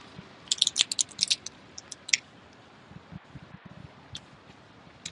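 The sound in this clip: Someone eats dagashi, cheap Japanese snacks: faint crunchy bites and crisp clicks cluster near the start, then give way to quieter, scattered chewing.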